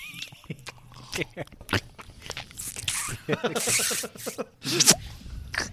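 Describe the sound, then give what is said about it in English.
Close-miked licking and chewing of ice cream on a stick, with wet smacks, slurps and soft crunches in irregular bursts, some loud and some faint. “That ice cream on a stick. Oh man. There's a little bit left. Lick it again. Gotta get close to the mic for the ASMR type thing, you know that.”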